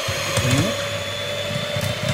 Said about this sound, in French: soit au batteur à main ou au batteur électrique, mais préférable faire un batteur électrique, ça va beaucoup plus vite. Première vitesse.